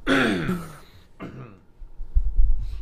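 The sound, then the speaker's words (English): Two raspy coughs or throat-clears, the first longer and louder, followed by a low, dull rumbling thump. “kind of coughing. I'm sorry for people who can hear that.”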